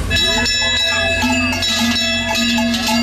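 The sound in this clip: Many cowbells clang and tinkle in an overlapping, irregular jumble as cattle are driven down from alpine pasture in South Tyrol, bright ringing tones continuing throughout over a low rumble.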